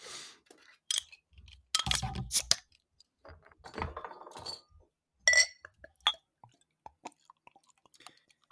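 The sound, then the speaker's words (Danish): A bottle of beer being opened: a few sharp glassy clinks and clicks, then a brief fizzing burst, all fairly quiet with gaps of near silence between them. “skal vi ikke prøve også at drikke den her øl? jo, jamen, så skal vi først åbne den.”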